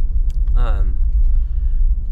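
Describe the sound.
Car driving toward the surface infrastructure of an underground mine, a steady low engine and road rumble that fills the whole clip, with a short voiced sound near the start.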